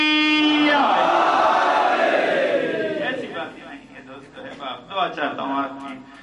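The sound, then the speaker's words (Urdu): A crowd loudly chants the Naara-e-Haidari slogan in unison, a dense roar of many voices held for about three seconds, then fading as a single voice begins speaking. “جن جن کا دل ہے کہ میں ان پانچ حروف کے دس معانی معصوم کی زبان سے سناؤں, وہ معصوم کی ولا دل میں لیے ہوئے لگا دے نعرہ حیدری”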